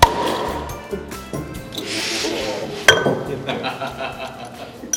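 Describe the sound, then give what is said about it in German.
A bottle of craft beer is opened at a brewery, with glassy clinks and taps, a short hiss of escaping gas, then a single sharp click, all under low background noise. “Und wir öffnen gleich mal eine Flasche.”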